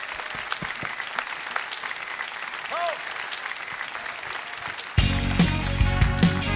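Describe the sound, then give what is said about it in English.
Audience applause at a live variety show as a singer is welcomed to the stage: steady, dense clapping that carries on throughout, with band music coming in underneath for the last second and a half. “Give me some hands. Come on, y'all.”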